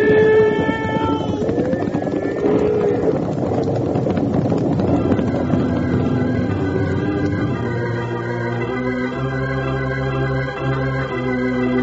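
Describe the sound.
A loud, continuous stampede of galloping horses, a sound effect in an old western radio drama, with a rumbling, clattering mass of hooves and sustained musical tones over it.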